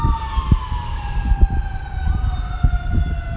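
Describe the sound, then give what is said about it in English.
Emergency vehicle sirens wail as sustained tones that drift slowly downward in pitch, over a low rumbling background. “Sorry for the sirens in the back.”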